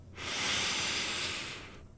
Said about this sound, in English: Here we go with a big breath in.